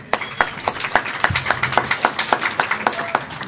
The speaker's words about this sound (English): thank you, but really, it's hardly my applause, that one. It's ours.